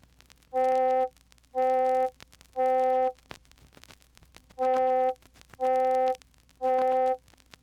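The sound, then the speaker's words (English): An electronic middle C tone with its overtones around 500 and 800 cycles emphasized, giving a hollow, vowel-like timbre; six even half-second notes sound in two groups of three, separated by brief gaps. “But if we emphasize the overtones in the region of 500 and 800 cycles per second, it sounds like this.”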